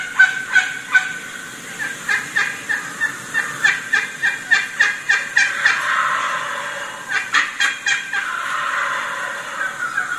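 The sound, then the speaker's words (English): A wild turkey hen yelps in a long run of rapid, evenly spaced, raspy notes, breaks off briefly, then starts a shorter run of yelps. Loud and clear against a faint background, with no voices. “she could be right in some intense yelping, and as soon as that gobbler gobbles, she's off right away”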